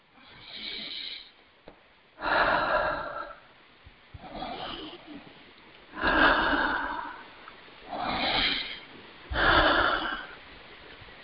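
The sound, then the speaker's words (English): Three deep breaths taken during a guided healing session, heard as six loud, breathy in-and-out rushes separated by short quiet pauses. “And take three nice deep, deep breaths.”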